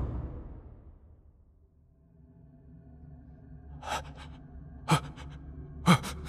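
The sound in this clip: A man's anxious, panting breaths in a quiet prison cell: after a hushed opening, three sharp, breathy gasps arrive at roughly even intervals.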